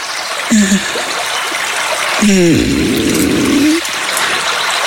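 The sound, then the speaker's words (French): Flowing water streams and trickles steadily, a continuous bright rushing wash that stays fairly even in level from start to finish. “On va monter le son de l'eau.”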